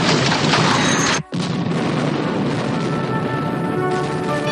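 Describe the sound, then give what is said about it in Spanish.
Cannon fire from HMS Victory at the Battle of Trafalgar, a heavy gun throwing 30-kilogram shot, comes through as a loud, dense booming roar. It breaks off briefly near the start, then carries on steadily to the end. “Ese fue el primer cañón que se disparó desde el Victory en la batalla de Trafalgar.”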